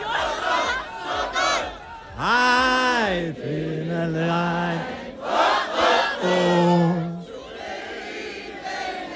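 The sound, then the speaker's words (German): A large crowd sings loudly together in unison at an outdoor town gathering on a square in Schwieberdingen, voices swelling in a few long phrases with sustained held notes. “So, ihr hört schon, hier wird richtig kräftig gesungen.”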